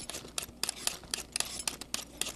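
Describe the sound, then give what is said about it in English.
Potatoes being peeled by hand, heard as a quick run of many short, crisp scraping strokes in an uneven rhythm. The strokes are fairly quiet and there is no talking. “The first step is easy, peeling the potatoes.”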